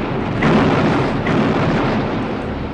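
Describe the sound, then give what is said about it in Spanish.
Cannon fire opening a battle between Napoleon's and Wellington's armies, a loud, deep continuous roar with two swelling blasts and no voices. “Y al fin, a las 11:20 de aquel día, ordenó Napoleón Bonaparte abrir fuego contra Wellington.”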